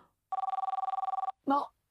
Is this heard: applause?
no